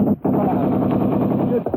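Gunfire from army troops near a river on the way into Seoul: a loud, dense, continuous rattle of rapid shots, like machine-gun fire, with a brief gap near the start.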